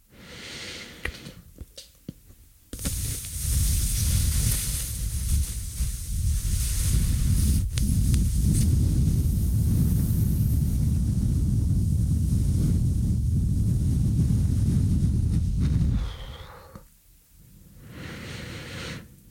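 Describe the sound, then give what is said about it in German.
Slow, steady exhalation through puffed-up cheeks during a qigong-style breathing exercise, a loud, sustained breathy rush lasting about thirteen seconds, sounding like wind blowing across a microphone, then fading out. “Ich puste jetzt meine Backen auf und dann lasse ich ganz langsam die Luft wieder raus.”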